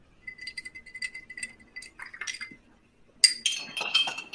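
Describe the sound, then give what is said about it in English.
A utensil clinks lightly against a glass as an Old Forester whiskey cocktail is stirred, a steady run of small tinkling taps, followed near the end by a louder, brighter burst of rattling. “Take some sort of a stirring device and give it a little stir.”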